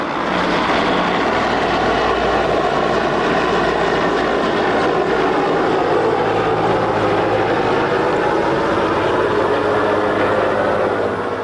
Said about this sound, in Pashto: پر اسمان الوتکې او پر مځکه سرتیري او همبوې ټانګونه ګرځي